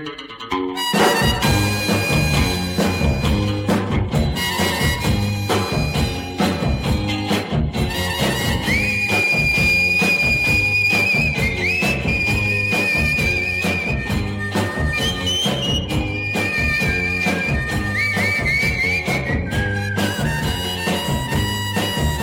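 A 1966 song built around rhythmic whistling: a steady, loud band groove runs throughout, and a sustained whistled melody enters in the second part and carries the tune to the end.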